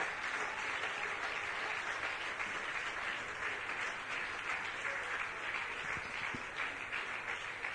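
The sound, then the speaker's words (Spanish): Congregation applause during a church service, following an altar call at which new believers came forward. The clapping is steady and dense, holding at an even loudness for the whole stretch with no break and no voices standing out. “Que el aplauso sea para Cristo.”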